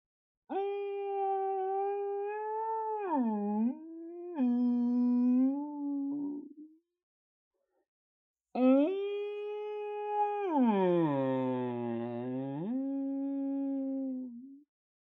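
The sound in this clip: A human voice imitates a blue whale call with two long, low moaning tones separated by a short pause, each dipping down in pitch and then climbing back up.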